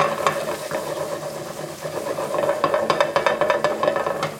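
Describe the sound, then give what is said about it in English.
Garlic and ginger sizzle in sesame oil in a pan that is being shaken on the stove, a steady frying hiss broken by irregular scraping clatters that grow busier toward the end. “And that is a sizzle I want to hear. So I'm just shaking the pan to kind of sauté it a little bit.”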